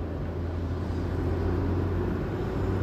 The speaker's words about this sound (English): Like I said, I'm driving right now, and yeah, somebody just.